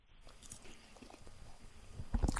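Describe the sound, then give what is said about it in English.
Faint chewing of food, soft biting and mastication noises that build to a few sharper, crunchier bursts near the end. “I'm swallowing some food here right now. Sorry.”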